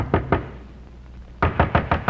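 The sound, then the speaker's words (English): Knocking on the door of an innkeeper at a port at night: two firm wooden knocks, a pause, then four more evenly spaced thuds, with no voices. “And before the night was over, the Count had come into the town and knocked on the door of an innkeeper of the port.”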